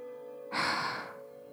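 A deep breath drawn in during a slow breathing exercise, heard as one soft, airy rush lasting about half a second over a steady low hum.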